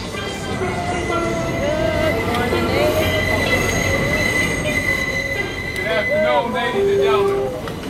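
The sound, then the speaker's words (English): Wheels of a New York Q subway train squeal against the rails, with loud, sustained high-pitched screeches and bending tones over a continuous heavy rumble. “The Q Train. Q für Queens.”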